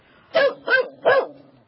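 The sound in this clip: Three sharp barks from an 8.5-month-old golden retriever puppy, evenly spaced and fairly high-pitched, with silence before and after.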